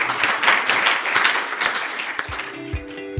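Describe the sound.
An audience applauds the authors after a talk, a dense, steady wash of clapping that thins out toward the end into a few scattered claps.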